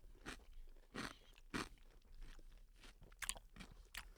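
Crisp crunches of teeth biting into a jarred half-sour pickle: a few sharp, bright snaps at irregular intervals, with softer chewing crackles between them, fairly faint and without talk.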